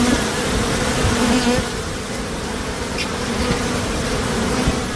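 Bees buzzing in a dense, continuous drone, loud and steady throughout with a low hum running underneath and no voices.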